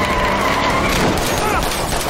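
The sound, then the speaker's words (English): Dense video-game gunfire pours out as a player shoots at muffin enemies: a loud, continuous barrage of rapid shots with no pauses, mixed with whooshing game effects. “He's shooting the hell out of those muffins.”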